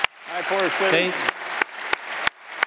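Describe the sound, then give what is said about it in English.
A few sharp, evenly spaced claps from a remote church audience watching a service on a screen. The claps come after a short stretch of voices. “So, like, if something cool happens, they clap”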